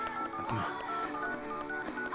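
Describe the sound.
Telephone keypad dialing tones, a few short, evenly pitched beeps spaced out over a busy, resonant background.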